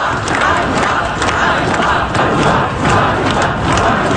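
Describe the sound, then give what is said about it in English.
Protesters gather in Kyiv, Ukraine, after the sudden sacking of the country's defence minister, making a dense, continuous roar of many voices with occasional thuds and shouts rising out of the steady din. “Now to Ukraine, where protesters are gathering in the capital Kyiv and other cities around the country after the surprise sacking of the country's popular defence minister.”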